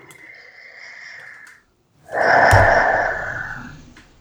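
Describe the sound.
A big, deep breath taken during a tapping exercise: two long breath sounds separated by a short silence, the second louder and fuller and slowly fading.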